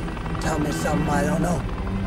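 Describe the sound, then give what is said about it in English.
Steady, loud helicopter rotor and engine drone as a chopper carrying two men nears a secluded hilltop facility among evergreens to land on a grassy clearing, with a voice speaking over it. “Jake and Stan are aboard the chopper as it approaches a secluded hilltop facility hidden amongst evergreens. They remove their headsets as it lands on a grassy clearing”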